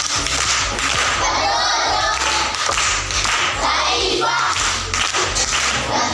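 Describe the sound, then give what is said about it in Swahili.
A group claps for an uncle who answered correctly during a school event. The quick, dense hand claps form a lively, continuous patter, with sharper slaps standing out over the steady crowd clapping. “Amepata. Makofi kwa mjomba.”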